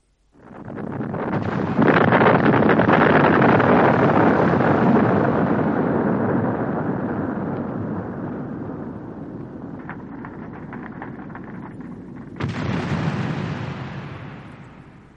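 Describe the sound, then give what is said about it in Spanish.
Explosion from a 1990 battle re-enactment recreating the blowing up of Fort Elliot: a heavy roar that swells within two seconds, then rumbles and slowly fades over many seconds, with a second sharp burst near the end. “Acabamos de escuchar, señoras y señores, la explosión que destruyó el fuerte Elliot. Mas no la original, sino otra hecha durante una recreación de la batalla”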